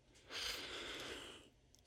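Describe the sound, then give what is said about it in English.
One long, rattling breath, drawn out for about a second, soft and heard alone. “Alondra takes a long, rattling breath.”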